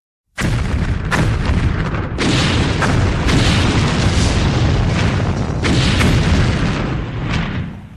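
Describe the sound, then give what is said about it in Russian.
Several dull, heavy explosions go off in quick succession, their deep booms overlapping into a continuous loud rumble with fresh blasts punching through every second or so. “Разносятся взрывы. Не один, а сразу несколько. Сухие, глухие, жирные.”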